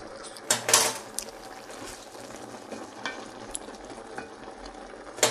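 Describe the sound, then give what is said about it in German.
Cucumbers simmering in a pot make a steady low sizzle and bubble. A few sharper stirring clatters stand out near the start and again at the end. “Das Ganze soweit köcheln lassen.”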